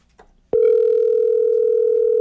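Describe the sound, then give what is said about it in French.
A loud, steady telephone dial tone begins with a sharp click and holds unbroken to the end as a call is placed to a contest winner, with no talk over it. “on appelle la personne gagnante de cette paire de bottes offerte par Sécurité Médique.”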